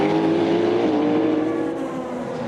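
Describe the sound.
Loud, steady engine drone from a Cadillac race car in a race. The buzzing harmonic whine holds nearly constant with slight shifts in pitch, and no voices are heard.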